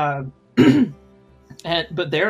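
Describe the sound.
A throat clearing: one gruff, rasping clear lasting a fraction of a second, set between stretches of speech.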